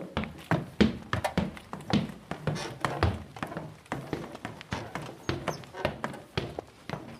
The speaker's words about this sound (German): Jetzt gehen wir ein paar Treppenstufen hoch.